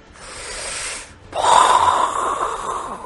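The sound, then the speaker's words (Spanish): A voice imitates a fire-breathing creature drawing breath during a tabletop role-playing game: a soft breathy hiss, a brief pause, then a louder, rougher rasping intake that slowly tapers off. “Y empiezas a ver cómo empieza a coger aliento.”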